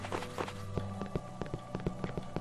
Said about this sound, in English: Anyway, I'm going to start walking. So you walk around with the arrow keys. There's a door. There's a wall.